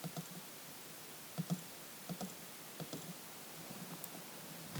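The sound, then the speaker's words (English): Computer mouse clicks: several soft, short, scattered clicks over faint steady background hiss, with a small cluster near the end. “Let me just click here.”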